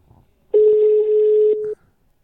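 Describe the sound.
A telephone ringing tone on the line as a call connects: one steady, sustained electronic tone lasting just over a second, loud against faint low murmuring before it.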